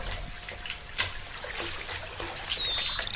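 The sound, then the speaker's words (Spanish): Raindrops patter and drip onto a puddle in a steady wet trickle with scattered sharper drops, and a faint high whistling note appears briefly near the end. “entre el repique de las gotas sobre el charco, se distingue el trino inconsciente de un pájaro.”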